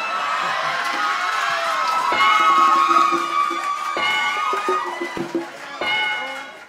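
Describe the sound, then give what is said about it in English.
A live improv comedy show crowd cheers and whoops. The noisy roar swells to a peak, then breaks into scattered shouts and short bursts of cheering before rising once more. “Judging by the crowd reaction, they like that shit.”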